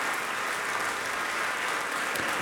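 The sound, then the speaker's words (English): An audience at pianist Olga Kern's recital in Bennett Gordon Hall at the Ravinia Festival applauds, with dense, steady clapping that holds at an even level throughout, without voices. “Olga Kern, back on stage in Bennett Gordon Hall, again acknowledging the applause of an appreciative audience.”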